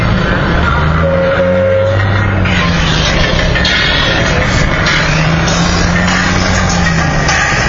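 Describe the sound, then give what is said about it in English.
A car being driven on roads in Sri Lanka, a loud, steady roar of engine and road noise with faint low droning tones, continuous throughout. “Definitely interesting trying to drive and talk. let's see. Yeah, it's been a little while since I've been on the roads over here.”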